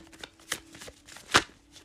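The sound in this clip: Tarot cards being shuffled for a Sagittarius reading, with soft papery rustling broken by two louder riffling bursts, the second the sharpest, all fairly quiet and with no talk.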